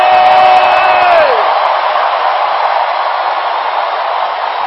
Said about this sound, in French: Acclamons pour le Seigneur!